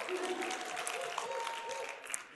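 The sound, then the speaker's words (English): A church audience clapping at a Sunday gathering of believers, a moderate, steady patter of many hands that holds at an even level with a few sharper claps standing out. “You don't have to clap.”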